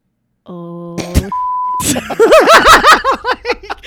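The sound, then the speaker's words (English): A censor beep: one steady, pure high-pitched tone lasting about half a second, cutting in between bursts of other sound. “Can we use our first beep in the podcast?”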